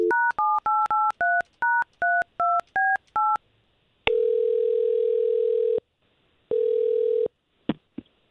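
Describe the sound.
A telephone number is dialed on a keypad as a quick, uneven run of about a dozen short beeping tones. Two long ringback tones follow with a gap between them, then a brief click.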